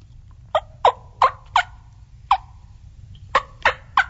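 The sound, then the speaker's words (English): Wild turkey hens tree yelp from the roost as they wake, giving eight short, raspy yelps in an uneven series with a pause midway. The calls are calm and moderate in volume, not raucous. “Oftentimes, you'll get hens tree yelping. So they'll be in the tree kind of waking up themselves, stretching their – and it sounds like this.”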